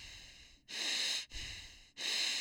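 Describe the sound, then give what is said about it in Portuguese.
Breathing in through the nose with flaring nostrils: three loud, hissing breaths, each about half a second long, follow one another with short gaps and no talk. “Quando você inspira, um respirador nasal faz isso aqui, ó. Narina dilata, ó.”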